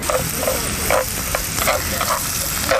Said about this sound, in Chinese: 对，先要下红萝卜炒。